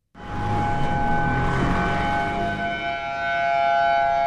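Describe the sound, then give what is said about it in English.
Tsunami warning sirens in Honolulu: a civil defense siren cuts in abruptly and holds a loud, steady wailing tone with bright overtones for the whole stretch, without breaks and with no voices. “That is the sound of the warning sirens just minutes ago in Honolulu, which is under a tsunami threat right now.”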